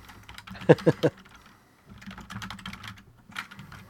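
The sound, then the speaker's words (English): Loud typing on a computer keyboard: a few sharp bursts of clattering key clicks, a brief pause, then more irregular clicking at a steady, busy pace. “Hold on. I'm going to type loudly.”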